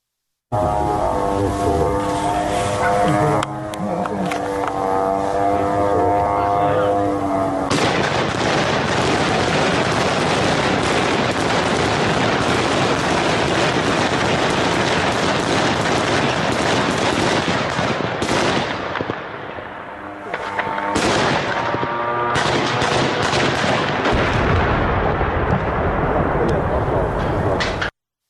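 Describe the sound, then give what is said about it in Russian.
Air defence gunfire aimed at attack drones during an evening drone attack: loud, dense bursts of rapid shooting form an almost unbroken roar, with a short lull near the end. Voices are heard in the opening seconds. “многие зафиксировали действительно работу беспилотников и работу ПВО по ним”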